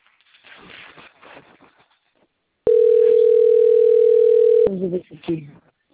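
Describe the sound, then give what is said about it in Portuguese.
A telephone dial tone sounds while a call is placed, a loud, steady, unbroken hum lasting about two seconds, with people talking just before and after it. “peraí, deixa eu ligar.”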